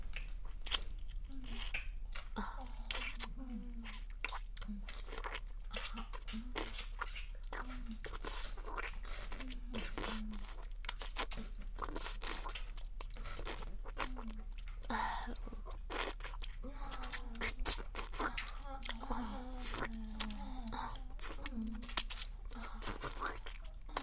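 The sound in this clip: Someone eating and chewing food, with many close, soft crunching bites and wet chewing sounds repeating irregularly throughout.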